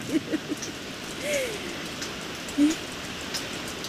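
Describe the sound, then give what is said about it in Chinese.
Rain falling: a soft, steady wash of hiss with a few brief faint tonal sounds over it. “哎 呀，老头子，下雨了！”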